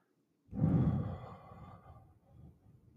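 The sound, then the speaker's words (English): A deep breath comes as one strong, airy sigh that starts suddenly and fades gradually, then trails into softer, quieter breathing. “and another deep breath in, and hold, and a deep breath out.”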